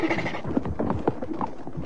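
A horse running away, heard as a busy clatter of hoofbeats mixed with dense background sound, with no clear pauses across about two seconds.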